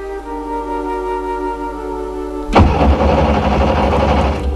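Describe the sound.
A car engine cranks without catching despite a battery checked beforehand: a steady whirring tone with a humming undertone, then an abrupt, louder, rougher churning noise that continues to the end.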